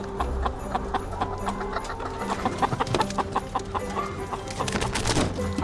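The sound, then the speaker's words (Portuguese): Caged hens clucking at a large egg production unit: a dense, steady chorus of many overlapping clucks and squawks that runs throughout, with no talk. “que as galinhas, apesar de tudo, até parecem felizes”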